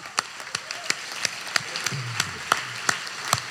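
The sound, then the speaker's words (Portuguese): Applause from the audience at a comedy roast, heard as many sharp, evenly spaced claps in a steady rhythm rather than a dense ovation. “Salva de palmas.”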